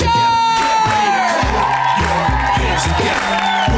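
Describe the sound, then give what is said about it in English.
An audience at a comedy show cheers, whoops and claps for the hosts, a loud continuous roar over a thumping, stepping bassline. “please put your hands together for your hosts”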